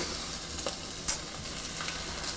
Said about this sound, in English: I got chicken thighs. There, I'm setting them in a pan.